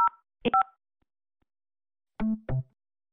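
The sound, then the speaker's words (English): Telephone keypad tones on a call to a health and rehabilitation center's phone system: a few short, clean beeps separated by stretches of silence, the last two sounding fuller and lower. “To reach a patient room, please dial the room number, then add a one.”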